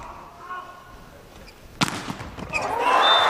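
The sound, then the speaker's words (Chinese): Tennis ball clipping the net cord on a serve and dropping in: a sharp impact stands out over steady background noise, then a second, lighter hit follows as the noise swells. “这球在蹭了网带之后呢，还是界内。”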